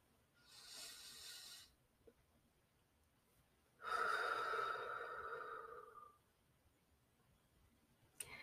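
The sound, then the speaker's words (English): Deep breathing in and out comes as two soft, airy breaths, the second longer and slightly tonal, separated by a pause and heard alone. “Okay, let's breathe in and breathe out.”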